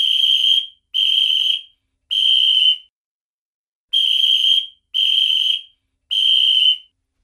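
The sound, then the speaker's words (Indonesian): A whistle is blown six times, in two sets of three short, steady, shrill blasts with a longer gap between the sets. Each blast holds one unchanging high pitch, and nothing else is heard. “bunyi benda apakah yang ditiup itu tadi? Ya, tadi adalah bunyi peluit yang ditiup.”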